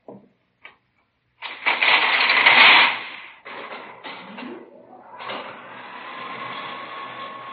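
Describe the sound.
An elevator runs in a police radio-drama sound effect: a couple of faint clicks, then a loud mechanical whir that settles into a steady, softer hum.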